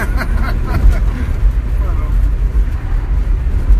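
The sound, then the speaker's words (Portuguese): A car engine revs hard as the accelerator is floored, a steady low rumble running through the whole stretch beneath excited voices. “Tá tá deixa eu pisar fundo no acelerador.”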